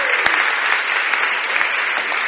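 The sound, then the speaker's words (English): Dense applause from a church audience on Easter Sunday morning, a steady, loud wash of clapping that holds an even level throughout with no voices. “Oh, yeah, give me a applause, absolutely.”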